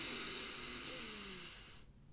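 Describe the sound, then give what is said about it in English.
A group inhaling deeply together during a guided breathing exercise: one long, steady, soft breathy hiss that cuts off abruptly just before the end. “So, we can all take a deep exhale here. Let's inhale together.”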